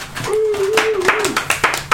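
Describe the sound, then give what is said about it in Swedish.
A few scattered hand claps from the kitchen during a Christmas-themed radio show. The claps come loose and uneven, and a sustained hummed voice runs beneath them. “Kan jag få en applåd från köket där?”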